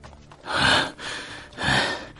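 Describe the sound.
An old man gasps for breath, giving two heavy, rasping breaths that swell and fade, each about half a second long and loud against a quiet background.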